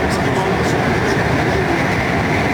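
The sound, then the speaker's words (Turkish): A metro train runs at high speed, near 120 km/h, on a line between Halkalı and Kayaşehir stations. It makes a loud, steady, continuous rumble with a broad rushing roar and no breaks. “Maksimum metro hızları 80 kilometre. İlk defa biz bu metroda 120 kilometreye çıktık.”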